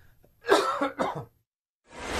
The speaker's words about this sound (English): I got a cough.